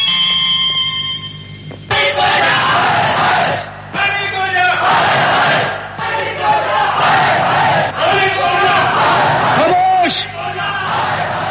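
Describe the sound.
Crowd of workers demanding their rights and raising an uproar, many loud overlapping voices yelling and shouting in a continuous, surging din with brief dips.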